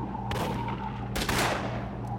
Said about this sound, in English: The only shooting is coming from the stamp mill now.